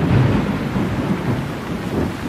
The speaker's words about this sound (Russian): Молнии прорезали небо одна за другой. Постоянно гремело и рокотало.